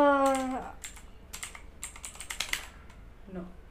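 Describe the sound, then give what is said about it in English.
Rapid typing on a computer keyboard, a run of irregular, crisp key clicks, with a brief voice at the start and again near the end. “Type fast.”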